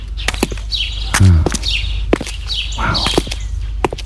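Footsteps walking down Gilead Lane, a road, sound as a steady run of crisp, evenly spaced steps. Each footfall is a short, dry tap.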